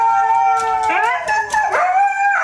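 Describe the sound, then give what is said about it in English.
Three husky dogs howl and grumble at not being let outside: long, loud, wavering yowls that slide up and down in pitch, overlapping and continuous throughout. “the Huskies are still complaining”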